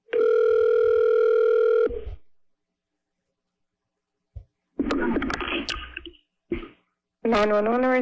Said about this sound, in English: I was dialing a telephone number.